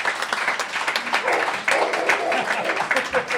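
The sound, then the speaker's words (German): Audience applause breaks out at a live stage event: steady, moderately loud clapping from a crowd, with the dense patter holding at an even level throughout. “Applaus! Applaus!”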